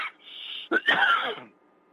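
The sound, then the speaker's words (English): A person coughs after liquid goes down the wrong way: a short, sharp sputtering burst followed at once by a longer, raspy throat-clearing cough, fairly quiet and on its own. “That was liquid going down the wrong side of my throat.”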